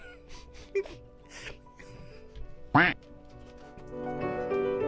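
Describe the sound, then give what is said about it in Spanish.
A goose honks loudly once, a harsh nasal call, with a shorter squawk a couple of seconds earlier, amid background voices and noise. “Apareció el ganso, por ejemplo.”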